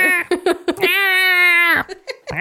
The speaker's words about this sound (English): Sounds like she's dying. She does. And, like, she's an old cat, so sometimes I worry.